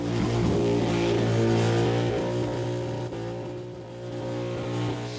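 A car doing a burnout on a burnout pad, its tyres spinning and smoking, gives a continuous loud, droning engine roar that holds steady with only slight swells over several seconds.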